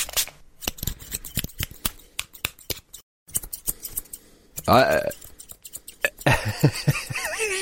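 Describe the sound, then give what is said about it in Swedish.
Scissors snip through hair during a haircut, a long run of many crisp, quick metallic snips in an uneven rhythm, with a brief pause near the middle and softer rustling between the cuts. “Att bli klippt.”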